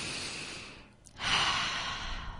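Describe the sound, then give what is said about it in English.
A deep cleansing breath taken during a mindfulness exercise: a soft, breathy hiss of air, a brief pause, then a louder and fuller rush of breath that holds steady to the end. No one speaks. “I'm going to take 3 deep cleansing breaths,”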